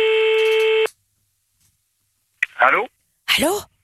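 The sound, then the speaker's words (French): A steady electronic telephone tone sounds on an outgoing call, holding for under a second before cutting off into silence. Two short bursts of a voice follow. “On appelle quelque part en France et en Navarre.”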